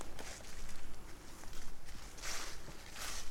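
Footsteps walking through a forest in autumn, a continuous run of many crunchy, rustling steps at a steady walking pace, fairly loud with no talking.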